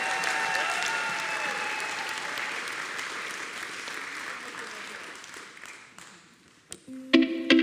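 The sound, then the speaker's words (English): Audience applause at a church gathering, a dense steady clatter of clapping that gradually thins and fades out, followed by a few brief louder sounds and a voice at the very end. “All right. Give him one more hand.”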